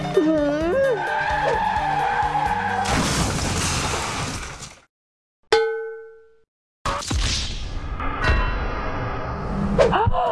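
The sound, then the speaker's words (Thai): Car tires skidding and crashing in traffic: a loud sustained screech, a short silence, a single ringing metallic clang that fades, then another silence and a long stretch of noisy crashing and rumbling. “เมื่อกี้รถชนกันหรอขับรถประสาทอะไรกันเนี่ย”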